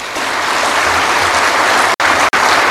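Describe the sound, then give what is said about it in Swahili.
Attendees applaud themselves at an official gathering about the earnings of state organizations: loud, dense, continuous clapping, broken by two brief silent cutouts near the end. “na naomba tuweze kujipigia makofi”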